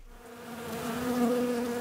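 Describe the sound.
Ground wasps buzz at their nest beneath the lawn of a swimming pool, a continuous droning hum with a steady tonal whine that swells slightly louder midway.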